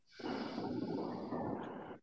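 A deep breath is let out in one long, steady exhale after being held during a breathing exercise. The airy rush lasts nearly two seconds, alone and without talk.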